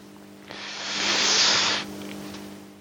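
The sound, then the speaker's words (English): A hand stirs cards around inside a card box, producing one continuous papery rustle that swells for just over a second and then drops away into quiet. “what I'm doing is stirring them around with my hand, grabbing a card”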